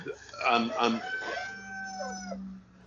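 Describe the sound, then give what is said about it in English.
A rooster crows in a long, strained call that holds a steady, reedy tone before trailing off. “And your rooster agrees with me. A rooster approves.”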